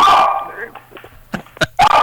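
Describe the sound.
A dog barking for a treat, giving a few sharp barks and yips after a person talks briefly at the start.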